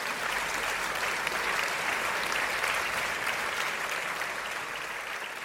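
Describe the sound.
A talk show audience applauds to welcome a guest, with dense, steady clapping that holds evenly through the whole clip.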